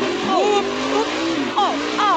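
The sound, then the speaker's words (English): Race car engine revving on the throttle, with several rising and falling sweeps of pitch in a strong, steady roar, and voices speaking over it. “here comes the throttle.”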